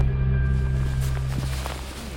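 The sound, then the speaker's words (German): Faint footsteps walking along a track through a dense forest, soft irregular crunches over a steady low hum. “Krass, wie dicht hier das ist. Wir sind so weit in den Wald gefahren, wie wir konnten. Das heißt, bis zur Schranke. Seitdem laufen wir.”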